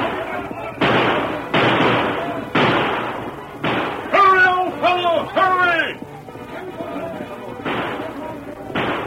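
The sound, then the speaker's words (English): Gunshots in an old-time radio drama as a band of horsemen fire at a masked rider: a rapid volley of several heavy blasts, broken by a shouting voice, then a few more shots. “The startled band of horsemen emptied their guns at him, but the very fury of their attack spoiled their aim.”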